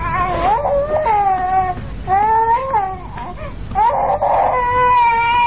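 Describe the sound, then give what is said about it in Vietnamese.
A baby cries loudly, a child held in a woman's arms, in long harmonic wails that rise and fall, a few sustained cries with brief breaths between them and no talk over them. “Đứa nhỏ càng khóc lớn mà kêu má nhặt hơn nữa.”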